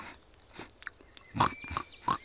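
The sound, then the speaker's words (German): Woolly pig piglets munching and crunching tubers and roots while digging. The sound is a faint, irregular series of crisp bites and chewing snuffles, with no talk. “Knollen knabbern, Wurzeln knurpsen, ganz genüsslich mampfen und buddeln.”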